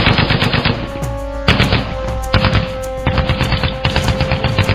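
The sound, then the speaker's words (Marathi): Automatic machine gun fire from guns hidden in trenches during a firefight, loud continuous rapid bursts of shots with a steady rattling rhythm, broken by brief gaps, with a faint tonal hum beneath and no voices. “खंदकात दडवलेल्या automatic machine guns आग ओकू लागल्या.”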